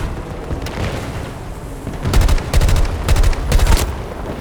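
Gunfire in a shooter video game: after a low, rumbling stretch, four quick bursts of rapid automatic fire crack out in close succession, loud and alone without speech.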